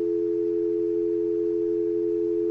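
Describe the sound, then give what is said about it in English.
A telephone dial tone after the caller hangs up: a steady, unbroken electronic hum that holds one even pitch and level throughout, with no voices. “Oh, they hung up. See, there's a dial tone.”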